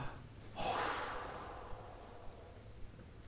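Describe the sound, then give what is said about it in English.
A breath let out with relief as a soft, airy exhale that begins abruptly and slowly fades, over a faint steady background hiss with a few tiny ticks afterward. “Here, listen to the breath.”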